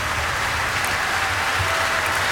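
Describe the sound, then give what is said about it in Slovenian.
Standing concert audience applauding a conductor and pianist after a performance, a thick, even roar of clapping that stays loud and unbroken from start to finish. “Priklon dirigenta in pianistke zdaj in občinstvo na nogah še vedno ploska.”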